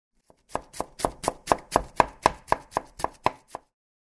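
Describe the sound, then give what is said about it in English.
A knife chops food on a cutting board while someone cooks. One faint tap is followed by a regular run of about a dozen crisp, evenly spaced chops, fairly loud against silence. “I can't cut this well.”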